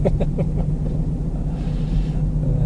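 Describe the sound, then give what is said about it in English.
Interior rumble of a rattly old Toyota car being driven: a steady, dense low drone with a constant hum and faint rattling texture, continuous throughout with no voices. “anyway, hopefully the audio is not too ridiculous and the background noise isn't too ridiculous. Of course, I am driving around in a rattly old Toyota”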